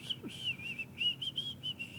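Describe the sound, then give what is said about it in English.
A person whistles a string of short, clear, high notes at a fairly steady pitch, separated by brief gaps. The whistling is faint over a low background hum. “the time that you actually start whistling”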